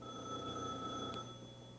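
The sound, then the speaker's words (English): A telephone rings with a steady electronic tone that stays faint and unbroken from start to end, with no voices over it. “That's the telephone. Well, I don't know whether it'll stay there like that or not, but let's answer the phone.”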